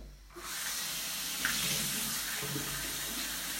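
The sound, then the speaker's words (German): Water runs from a tap while a part is being washed out, starting after a brief quiet moment and then holding a steady, even, fairly soft rushing hiss. “Jetzt mal waschen wir das Teil hier aus.”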